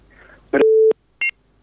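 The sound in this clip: Telephone dialing tones sound as a radio call-in show connects the next caller: one sustained steady beep, a short pause, then a brief higher two-tone beep, clear and alone.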